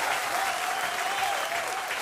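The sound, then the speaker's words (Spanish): An audience applauds at an evening music show in a cantina: a dense, even clatter of many hands clapping at a constant level throughout. “Un aplauso grande”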